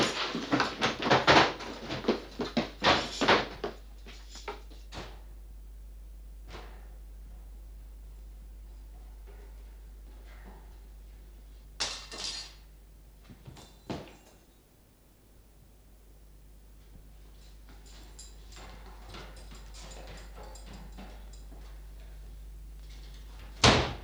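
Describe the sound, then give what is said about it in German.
Heavy doors forced open in a radio drama scene: a burst of loud banging and crashing impacts at the start, then quieter stretches with a couple of further sharp knocks over a steady low hum, with no talk. “Sprengt die Türen.”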